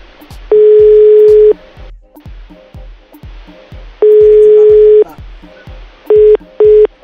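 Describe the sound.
A phone line gives a ringback tone on a call nobody answers: two long, steady, mid-pitched tones about a second each with a pause between, then two short beeps, all over a steady low rhythmic thump.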